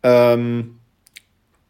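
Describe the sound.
Two brief, faint clicks from the back and pause buttons being pressed together on a player. They come close together, well after a louder, sustained opening sound.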